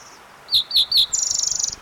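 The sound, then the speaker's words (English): A fox sparrow sings three clear, high whistled notes, then a rapid, bright trill of many quick notes. The song is loud and stands alone with no voices. “fox sparrow singing in the background”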